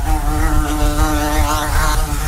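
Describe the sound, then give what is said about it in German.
A wasp buzzes in summer with a loud, continuous droning hum, its pitch wavering slightly throughout and no other sounds or voices. “Das Wespe.”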